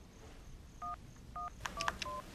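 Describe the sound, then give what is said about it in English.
Telephone keypad DTMF tones as a number is dialed: two clean dual-tone beeps followed by a quicker, denser run of several more key tones, each a short bright electronic chirp. “After dialing the number of your choice, simply key in your personal security code.”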